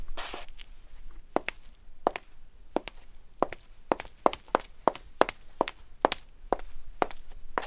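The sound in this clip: Crisp footsteps of white high heels clicking on a tile surface: many sharp, bright taps in a steady walking rhythm, fairly quiet against a soft background with no talk.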